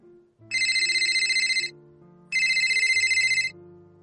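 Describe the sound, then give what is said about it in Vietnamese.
A phone ringtone rings suddenly in a quiet office: two bursts of bright, rapidly pulsing electronic trill, each a little over a second long, over soft low tones. “Trong văn phòng yên tĩnh, tiếng chuông vang lên thực sự đột ngột.”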